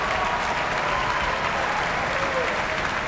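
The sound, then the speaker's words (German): A full theatre audience and the orchestra applaud at the Prinzregententheater in Munich after an opera performance, a dense, steady wash of clapping that holds at an even level throughout. “Das vollbesetzte Prinzregententheater in München ist hörbar angetan und hier applaudiert ebenfalls das Orchester.”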